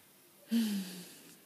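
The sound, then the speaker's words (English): A single deep breath, brief and breathy with a slight voiced, sigh-like tone, stands alone against quiet. “Put your hands on your heart. Take a nice slow breath if you're safe and able to do so,”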